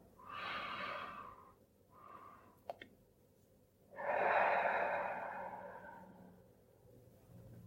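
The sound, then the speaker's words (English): Deep breathing during a mindful breathing exercise: two airy inhales come first, then a longer, louder, drawn-out exhalation. A brief click falls between them. “Let's take a couple of deeper breaths, two inhales followed by a longer exhalation.”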